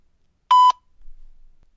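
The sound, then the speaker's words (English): A single short electronic beep, the voicemail recording tone, sounds once for about a quarter second at a steady mid pitch, followed by faint low noise. “wait for the tone, which you'll hear soon”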